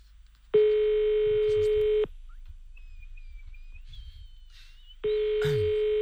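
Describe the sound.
A telephone call rings out with two long, buzzy ringback tones separated by a quiet gap of about three seconds, the second tone starting near the end.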